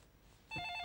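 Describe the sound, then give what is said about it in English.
A telephone starts ringing partway through, a steady electronic ring with a bright, tonal pitch that continues to the end after a moment of quiet. “Dad, no, don't pick up the phone!”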